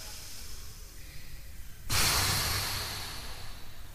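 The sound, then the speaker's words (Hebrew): A crowd blows hard all at once to put out large candles, making a single loud breathy whoosh of air that bursts in suddenly and then slowly fades over a couple of seconds. “המון המון אוויר. נשיפה גדולה.”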